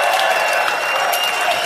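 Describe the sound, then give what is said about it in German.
Audience applause on a German morning television show, a thick, continuous roar of many clapping hands blended with crowd noise, steady and fairly loud throughout. “Möchtest du einen größeren Applaus noch?”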